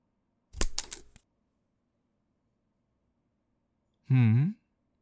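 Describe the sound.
Flower stems being trimmed to fit a cellophane-lined white bamboo basket: a short cluster of crisp snipping clicks, then a pause and a brief voiced sound.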